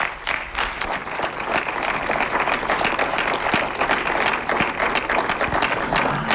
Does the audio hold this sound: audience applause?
yes